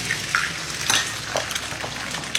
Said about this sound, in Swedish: Och det är också här som man börjar se de här klippen då på Parisbor som steker ägg och pannkakor i fönstersmygen eller på trottoaren.